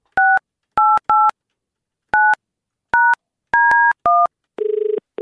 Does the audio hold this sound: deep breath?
no

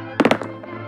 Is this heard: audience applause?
no

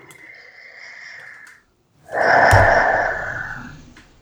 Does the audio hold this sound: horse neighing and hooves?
no

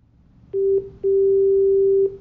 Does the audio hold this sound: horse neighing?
no

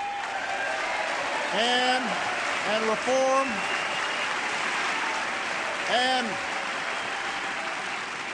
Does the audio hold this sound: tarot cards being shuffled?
no

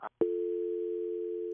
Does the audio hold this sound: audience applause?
no

